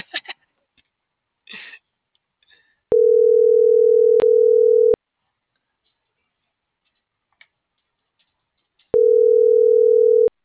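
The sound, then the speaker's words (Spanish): A telephone tone after a dropped call. A few soft clicks come first, then two long, steady, mid-pitched tones of about two seconds each, separated by a long silent gap. “Disculpa, estimado, se cortó la llamada.”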